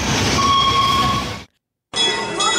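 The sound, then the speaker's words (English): A theme park train rumbles steadily with a sustained tonal whine above the din. The sound cuts to silence briefly, then resumes. “That's Casey Jr. That's the train.”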